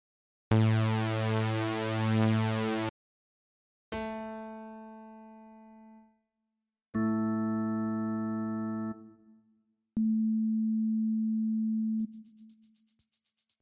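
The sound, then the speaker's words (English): Concert A played on several different instruments in turn. Separate sustained tones follow each other with short silences: a bright, buzzy tone, a struck note that fades away, another rich held tone, then a pure smooth tone, ending in a thin high buzz. “Here is a 440 Hz A note using a few different instruments.”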